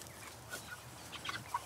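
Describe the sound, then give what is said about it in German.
Broiler chickens on open ground cluck faintly, a few short, scattered clucks against a quiet background. “Im Gegensatz zu den Legehennen dürfen die Masthähnchen sogar auf offenen Böden leben.”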